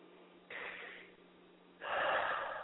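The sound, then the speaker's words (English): A deep breath drawn in and then let out, heard as two airy, rushing swells. The first is moderate and the second is longer and louder. “Take a deep breath for us.”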